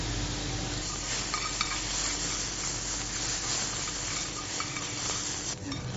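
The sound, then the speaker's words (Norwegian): Mushrooms sizzle as they fry in oil in a pan. A dense, steady crackling hiss runs throughout at an even level, with a few brief clicks of stirring and no voices. “Detta är den soppen som har ligget I den olja som du har brukt I den emulsionen. Precis. Mm. Så den svisser lige här så blir det så dejligt lækkert.”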